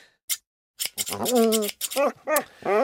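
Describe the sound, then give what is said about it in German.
Scissors trim a dog's fur, giving many short, crisp snips in an uneven rhythm, interleaved with wavering vocal sounds. “Ich, ich schneide doch nur ein bisschen die Spitzen hier.”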